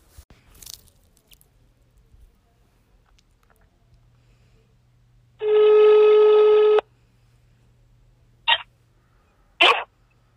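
Telephone ringback after dialing a call: one steady, buzzy ring tone lasting about a second and a half over a faint low hum, followed by two short, sharp clicks.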